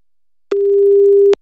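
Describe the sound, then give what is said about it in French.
Telephone ringback tone heard on the line after a number is dialed: one steady, fairly loud beep lasting just under a second, with nothing else around it. “Compose son numéro.”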